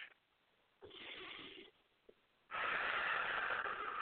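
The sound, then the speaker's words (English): Breathing exercise: a big breath drawn in through the nose, then let out through the mouth. A shorter, soft breath noise comes first, then a longer, louder rushing exhale, with no talk. “take a big breath in through your nose and out through your mouth. One more.”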